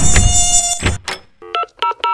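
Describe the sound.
High, whining buzz of mosquitoes that swells in several passes, then cuts off. A few short electronic beeps like phone dialing tones follow.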